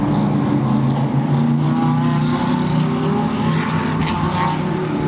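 Racing cars accelerating hard on a race track during testing, with a large field spread out: a loud, dense engine roar with layered droning harmonics runs continuously and steadily throughout, with no talking.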